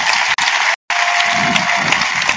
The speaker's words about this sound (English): I actually like everybody to give a huge round of applause for Christian Valor.